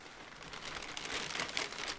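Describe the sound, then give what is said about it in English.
A plastic bag holding 24-ounce malt liquor cans is opened on an office desk, giving a continuous, bright crinkling rustle that runs for about two seconds. “Fresno City Council member Miguel Arias opens up a plastic bag that's been sitting on his office desk.”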